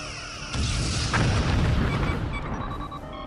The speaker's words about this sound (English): Phaser arrays 1, 3, 5, lock in. Ensign, get to hangar deck and launch all fighters. Aye, sir. Targets acquired. Ready to fire. Fire!